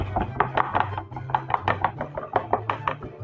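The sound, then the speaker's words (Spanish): Rapid knife strikes as a habanero chili is chopped very finely, many sharp, evenly spaced taps in a steady rhythm. “El chile habanero también lo picamos muy pequeñito.”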